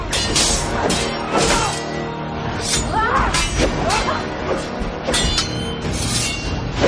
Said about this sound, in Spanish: Ataca blandiendo las dos espadas. Él para la sarta de golpes.